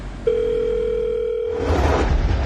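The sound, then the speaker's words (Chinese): Telephone tone heard while a number is dialed on a mobile phone: a steady, pure tone starts abruptly, holds for over a second, then gives way to broad, rushing noise. “按着数字键给一个手机上没储存过任何记录的陌生号码打了个电话。”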